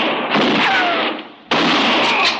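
Rifle fire rings out in a 1958 Western radio drama: two loud, sharp blasts, each trailing off into a sustained noisy rumble.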